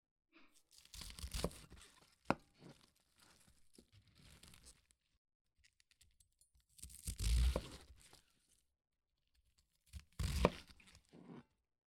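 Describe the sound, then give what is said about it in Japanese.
A sharp kitchen knife slices easily through a raw cabbage, giving a few crisp, crunchy tearing bursts separated by quiet gaps, fairly soft and with no talk. “まずはキャベツ、切ってみますね。すごい、力を入れなくてもスッと切れます。”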